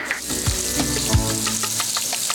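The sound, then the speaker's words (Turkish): Butter sizzles as it melts in a pot before onions go in, a steady crackling hiss with scattered small pops throughout and no talk. “Tereyağımız yumuşamaya başlayınca soğan atacağız.”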